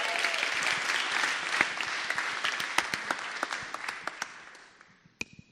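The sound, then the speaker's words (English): A church audience in Cape Town applauds to welcome a speaker to the front, dense steady clapping that gradually thins and fades, ending with a few last isolated claps. “So Mark, please come to the front. Let's give him a hand. Let's welcome the guy.”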